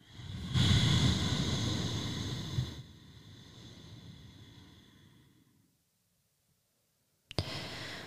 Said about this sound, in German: nehme ich nochmal einen ganz tiefen Atemzug, nochmal. Und aus.